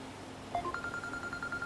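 A phone signals an incoming call during a religious study lecture: a few short electronic tones, then a steady series of evenly pulsed high beeps, fairly faint and alone.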